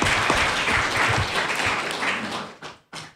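Audience applause at an evening art review panel: a dense, steady patter of many hands that thins out near the end and finishes with two separate claps.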